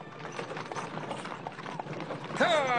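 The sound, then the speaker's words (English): Heavy horse-drawn wagons roll along, with hooves clip-clopping in a steady, uneven rhythm. The sound is fairly faint and continuous, a soft patter of hoofbeats over a low rolling rumble. “Hidden by the thick forest, the Indians watched silently as white men in their heavy wagons entered their lands.”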